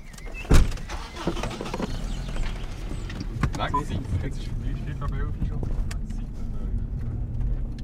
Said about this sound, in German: Wir fahren durch Wohn- und Industriegebiete.